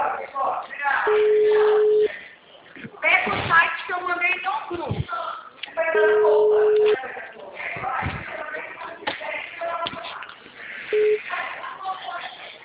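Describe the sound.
A telephone call is placed over a narrow, phone-quality line. A few steady ringing tones sound, with people talking between them.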